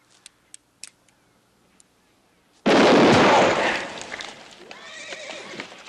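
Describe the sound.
A handgun fires in a Western desert scene. A few faint, sharp clicks come first. Then a single loud blast cuts in and its rumbling decay fades slowly over the following seconds.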